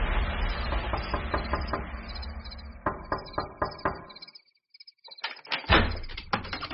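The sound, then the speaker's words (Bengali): Metal door knocker rattled against a door at four in the morning: a quick run of sharp, hard knocks, a short silence, then another loud flurry of clattering raps. “ভোর রাত চারটের সময় সুপরিচিত সেই কড়া নাড়ার শব্দে আমার ঘুম ভেঙে গেল।”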